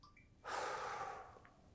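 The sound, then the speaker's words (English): One deep breath: a soft, airy rush that swells suddenly, holds for under a second, then thins out and trails off quietly. “take a nice deep breath in and then let it out.”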